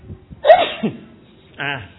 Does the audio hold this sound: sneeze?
yes